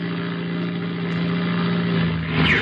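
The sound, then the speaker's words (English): A light aircraft engine drones steadily at a constant mid-low pitch throughout, a continuous hum that swells slightly near the end. “the motor's come down. Sure it did. I cut the switch.”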